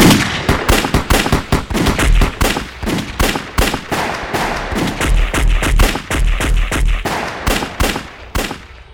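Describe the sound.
Rapid single shots from a Bizon submachine gun, fired by a kneeling shooter: many loud, sharp cracks in fast, slightly uneven succession with no pauses and no voices.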